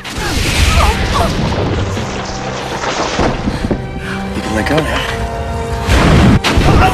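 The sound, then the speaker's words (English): A heavy explosion booms as a cave chamber collapses, with crashing debris and rumbling over a sustained musical score, swelling louder near the end. “They throw themselves to the ground as the chamber explodes behind them.”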